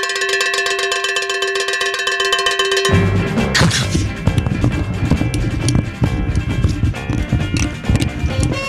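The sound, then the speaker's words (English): A phone tumbling inside a running clothes dryer gives loud, rapid, rhythmic clunking and rattling, like hooves on pavement, beginning after a few seconds of a steady electronic tone and continuing to the end. “we have a dryer here in the studio. A lot of people are unaware of it, but we have a dryer here in the studio. Let me hold on, Kevin. Let me throw my phone in the dryer here.”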